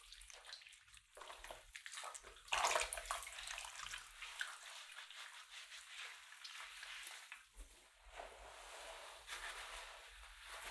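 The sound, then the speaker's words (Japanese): Slippery, lathered washing with water: wet swishing and squelching textures run continuously and swell louder around the middle, with no voices. “ぬるぬるでいっぱい洗ってあげますからね。”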